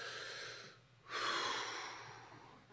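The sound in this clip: A deep breath: a faint airy rush that dips into a short lull, then swells into a fuller exhale and slowly trails off, with no voices.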